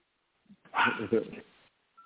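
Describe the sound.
A person imitates a dog with one sustained, voiced bark-like howl lasting about a second, rough and fairly loud. Faint short sounds come just before and after it.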